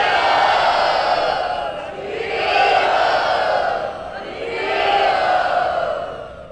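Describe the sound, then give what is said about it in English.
A crowd loudly chanting "Hari Bol" to welcome and bless arriving parents in Bombay. The massed voices swell and fade in three roaring waves. “Everyone, please welcome my mother and father to Bombay and give them your blessings by loudly chanting Hari Bol.”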